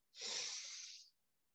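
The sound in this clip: A slow, soft breath drawn in through the nose during a guided breathing exercise: one airy, hissing inhale lasting about a second, faint and alone.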